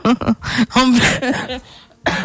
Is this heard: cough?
yes